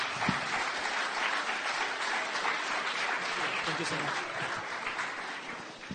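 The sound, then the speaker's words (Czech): Audience applause welcoming a guest onto a stage: a dense, steady wash of clapping that stays at an even level throughout. “Můžeme ještě jednou přivítat potleskem.”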